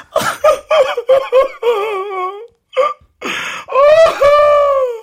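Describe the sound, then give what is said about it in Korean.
A man's voice imitates a snail crying sadly: a run of short, choppy sobbing and hiccuping cries, then longer wavering wails broken by brief pauses, loud and with no other sound. “지금 슬피 우는 거잖아요, 이게.”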